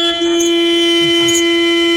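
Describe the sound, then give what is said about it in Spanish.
A long, loud horn blast sounds as one steady, unbroken tone held for the whole clip, with no talk over it. “Es un pito que suena fuerte, un pito oiga largo.”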